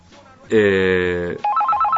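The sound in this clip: A telephone ringing during a call placed to someone in Neuquén: one long buzzing ring tone, then a quick run of alternating high electronic beeps.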